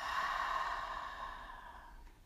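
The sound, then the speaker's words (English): A deep, slow breath during a guided breathing exercise comes as a soft, airy breath out. It is faint and gradually tapers away over about two seconds. “And one last breath together. Breathe in and out.”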